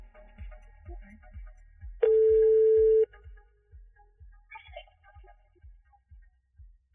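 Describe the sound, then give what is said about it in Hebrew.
A single ringback tone of about one second sounds while a call is being placed, steady and clear over a low, regular throbbing pulse that continues throughout. “אז נתקשר אליה, אין מנוס. אין מנוס, נצטרך להתקשר אליה.”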